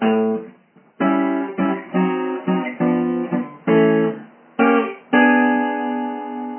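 An acoustic guitar plays a blues turnaround, moving a D7 chord shape from the 2nd fret up to the 3rd to form E flat 7. Several plucked notes and strummed chords ring out in sequence before a final chord sustains and fades.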